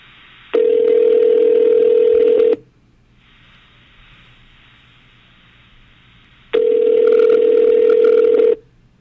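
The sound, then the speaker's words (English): Telephone ringing tones from a video game phone call that goes to voicemail. Two long, steady, loud ring tones are separated by a quiet stretch of low hum, with no voices. “He gets a voicemail, very angry.”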